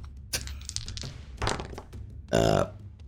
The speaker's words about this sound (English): The burp of power.